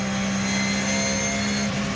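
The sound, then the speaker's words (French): A 560-horsepower car engine drones loudly at high speed, about 210 km/h, with a steady, dense roar that holds at a constant level for two seconds and does not clearly rise or fall. “210 km/h. Je peux dire que le moteur il est plein. Les 560 chevaux, on les sent bien.”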